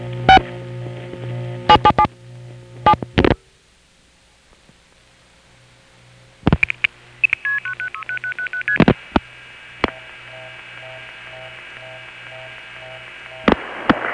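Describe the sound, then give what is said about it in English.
Touch-tone beeps as a telephone number is dialed: a few quick clusters of dual-tone bleeps, then a run of stepped steady tones and later single beeps, all over a low steady hum. “there are these funny beeps. Let me play that again. It did stop, and I'll finish dialing the number this time.”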